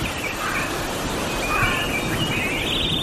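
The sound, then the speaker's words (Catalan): Birdsong used as a radio jingle introducing the weather, with light chirps and whistles running continuously over a steady hiss-like bed at moderate level. “Però escolteu que tinc els ocellets del Martí Oliveres a punt de sortir de la gàbia. Un moment, tirem-los.”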